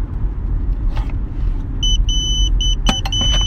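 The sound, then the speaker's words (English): A hospital pager beeping: a rapid run of high, piercing electronic beeps in short repeated bursts, sounding over a steady low rumble. “That is my hospital pager.”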